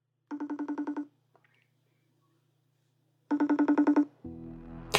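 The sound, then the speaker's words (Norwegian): Calling tones sound while a call is placed over the internet. Two quick trains of pulsed beeps are separated by a stretch of silence. A brief, different tonal sound follows at the end, with no speech. “Skal vi se om vi får ringt opp”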